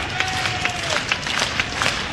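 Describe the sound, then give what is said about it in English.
Baseball stadium crowd noise while a pitcher works through his first inning with two strikes on the batter: a steady, broad roar of the crowd with recurring sharp claps and shouts rising above it. “Crowd trying to help Gavin through his first inning of work.”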